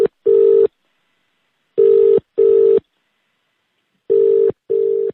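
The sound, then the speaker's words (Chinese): Ringback tone of an unanswered telephone call to an office extension: the tail of one beep, then three pairs of short, steady, mid-pitched beeps. Each pair is separated by silence. “不过该分机号一直无人接听。”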